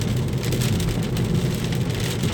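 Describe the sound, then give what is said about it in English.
Heavy rain during a drive, a dense and steady roaring hiss with a low rumble underneath. It holds constant and loud throughout, with no talk. “it's just been raining so hard these last couple days.”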